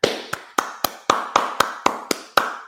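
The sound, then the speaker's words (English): Ten sharp, evenly spaced hand claps at roughly four per second, each a crisp crack with a quick decay, in celebration of a Raiders victory, with no talking. “So I would actually like to clap it up for the Raiders and also clap it up for we.”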